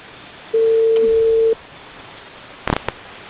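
A single steady telephone ringback tone lasts about a second while a call is being placed. Faint line hiss follows, then a short cluster of clicks.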